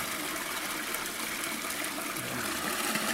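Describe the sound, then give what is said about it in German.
Wort gushes steadily from the opened tap of a mash tun during lautering in craft beer brewing, the cloudy first runnings making a continuous, even rushing of liquid with no talk. “Dann drehen wir jetzt mal den Hahn auf. Da kommt zuerst mal trübe Plömpe raus.”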